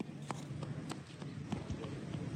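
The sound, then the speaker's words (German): Light running footsteps of a small boy crossing a square lined with closed shops in Muzaffarabad, Kashmir: a quick, fairly even series of soft taps over a steady background hiss. “Ein kleiner Junge läuft über einen Platz, der von geschlossenen Geschäften gesäumt wird.”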